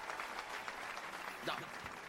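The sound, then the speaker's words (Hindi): Applause from an audience at an evening stage show in a railway colony, following a young girl's performance: a steady, dense wash of clapping that holds at an even level throughout, with a voice talking over it. “Rinku के जोरदार तालियां बजाइए, जोरदार ताली।”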